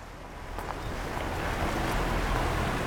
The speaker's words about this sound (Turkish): Suyun çok ilginç bir şekilde çikolata kahvesi renginde olduğunu görüyorsunuz. Bu çok fazla sediment taşımasından kaynaklanıyor. Nehrin hacmi ve akış hızı şu anda çok yüksek.